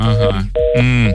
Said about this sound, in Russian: А, телефон звонок у нас.